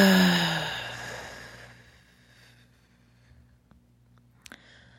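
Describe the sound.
A deep breath out during a guided meditation: a soft, airy exhalation starts strong and fades away over about two seconds, leaving near quiet with a few faint clicks.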